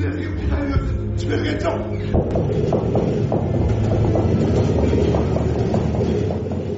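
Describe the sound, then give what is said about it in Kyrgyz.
Train rumble with a continuous low mechanical drone and irregular metallic clatter, steady and loud throughout, from trains running constantly from west to east. “Батыштан чыгышка, чыгыштан батышка тынбай каттаган поезддердин үнү коштоп”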